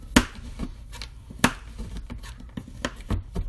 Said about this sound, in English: Almost done. I just gotta go over it again and cut it up a little more. That way it melts evenly.